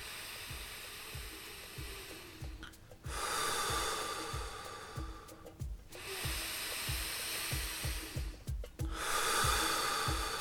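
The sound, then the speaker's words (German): Deep, full breathing in and out: long, loud, hissing breaths alternate in slow succession, each inhale and exhale drawn out fully, over a faint, steady low pulse. “Und vollständig ein, vollständig ausatmen.”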